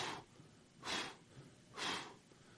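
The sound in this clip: A person blows on live coals under small sticks to start a fire, making three strong, breathy puffs in an even rhythm with quiet pauses between them.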